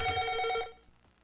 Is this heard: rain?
no